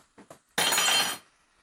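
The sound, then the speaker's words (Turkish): A metal spoon is thrown and lands with a bright, clattering clink, one loud metallic burst lasting about half a second, preceded by two faint soft sounds. “Fırlatayım mı kaşığı? Atayım. Oraya. Çok güzel. Bak attım.”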